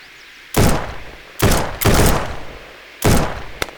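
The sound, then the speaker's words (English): Four loud gunshots ring out at uneven intervals during a shootout on a rocky ridge in a radio drama. Each shot is a sharp, booming blast with a short decaying tail, and no voices are heard. “I got grazed on the ear. Probably by some rock that busted off when he fired this way.”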